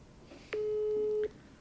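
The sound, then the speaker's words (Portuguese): A single steady phone ringback tone, a mid-pitched hum lasting under a second, sounds once while a call to a friend is being placed, with faint background hiss before and after. “Será que eu ligo no Pedro aqui? Liga, liga aí, liga aí.”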